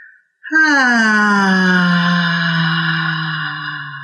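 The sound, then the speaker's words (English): One long, deep, voiced moan of pleasure made on a slow exhale as a breathing exercise. It holds a steady tone for several seconds, dips slightly in pitch at the start and softens gradually toward the end. “when you breathe in and then exhale, making a pleasure sound like,”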